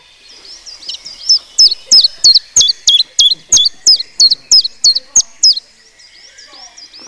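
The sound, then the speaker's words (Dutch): Common chiffchaff song: a steady run of over a dozen loud, high, bright notes with an even rhythm, preceded and followed by softer high chirps. “Oké, dit is de tjiftjaf.”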